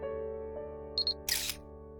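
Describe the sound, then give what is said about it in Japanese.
A camera taking a photo: two short, high electronic beeps followed by a single brief shutter burst, all over a steady tonal background hum. “じゃあ今年も一回背負ってるところを写真に撮って傷つかないように大切にしまっておこうか。”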